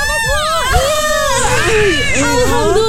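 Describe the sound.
A newborn baby girl cries just after birth, with loud, wavering, high-pitched wails that rise and fall in a steady run of cries lasting the whole clip.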